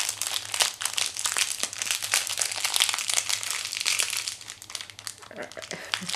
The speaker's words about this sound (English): So I took the packaging off, and it's just like a corn and a cob on a stick, except it's a lollipop